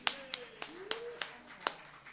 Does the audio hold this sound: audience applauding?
yes